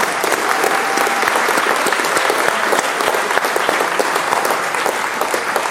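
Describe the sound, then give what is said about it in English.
Sustained applause from an audience giving a standing ovation to mothers during a church service, a dense, even wash of many hands clapping steadily for the whole stretch with no break and no voices over it. “Now, ladies, you sit down, and all the rest of us, let's give them a standing ovation.”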